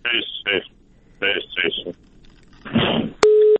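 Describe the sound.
Telephone busy tone after a call on a phone line is cut off: muffled line speech comes in short bursts, then a single steady, loud beep sounds at the end.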